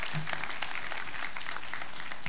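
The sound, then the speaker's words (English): A church audience applauds its worship team with faint, steady, even applause that continues without a break. “As our worship team join me in giving them a round of applause for faithfully leading us.”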